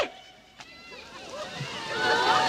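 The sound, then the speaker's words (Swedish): Water sloshes and splashes as a man lies on his back in a cold fountain, the churning growing louder toward the end, with raised voices over it. “Ja, direkt i plurret. Och inte var han feg heller, utan han lagt sig på rygg. Och skvarpar omkring.”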